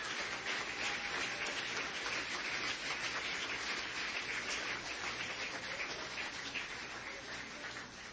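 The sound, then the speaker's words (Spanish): A crowd at a religious testimony gathering claps for the Lord with continuous, dense applause that stays even throughout and tapers slightly toward the end, with no voices. “Dele ese aplauso con ganas al Señor.”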